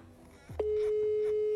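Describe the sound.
A single telephone ringback tone from an unanswered call, a steady mid-pitched beep lasting about one second, preceded by a brief faint voice sound.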